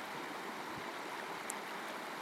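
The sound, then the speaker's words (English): A river flows with a steady, even rush of water that hardly changes in loudness. “I've come down to the river to collect some water.”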